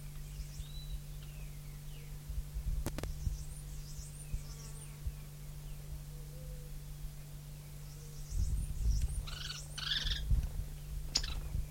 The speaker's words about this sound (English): Three birds present.